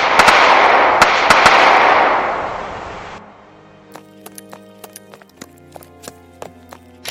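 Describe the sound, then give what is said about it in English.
Volley of pistol and rifle gunfire: a loud burst of overlapping sharp cracks over a dense roar lasts about three seconds, then gives way to scattered, sharper single reports over a much quieter background. “Heads up, boys. Here they come. Wait for it, boys! Fire!”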